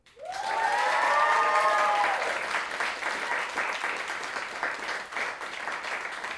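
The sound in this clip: Audience applause as a speaker is welcomed on stage: dense, steady clapping throughout, with a short rising cheer near the start.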